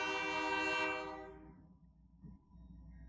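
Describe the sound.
A train horn sounds a steady, many-toned blast that fades out within about a second and a half, leaving a low rumble of rail traffic.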